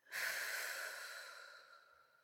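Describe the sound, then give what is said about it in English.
A person breathes slowly, a single long, soft, airy breath heard alone that starts abruptly, holds steady, then gradually fades away. “Just breathe with me, okay? In and out.”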